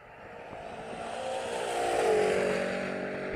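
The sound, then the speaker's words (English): A Tesla Cybertruck accelerates hard from a standstill: a smooth, steady whine and roar that builds in loudness, peaks around two seconds in, then holds strong, with no voices. “Cybertruck take off. Oh yeah, you ain't catching that fucking thing.”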